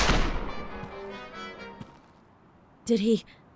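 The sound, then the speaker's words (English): A single loud gunshot in a dramatized scene opens with a sharp blast and a long ringing decay that fades over about two seconds, followed by a brief voiced exclamation near the end. “She shot Dugan. Guns out.”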